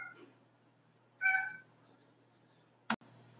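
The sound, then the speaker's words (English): A cat gives a single short meow over a faint low hum, and a brief sharp click follows later. “My cat must have heard the angst in my voice and decided to get in on the conversation as well.”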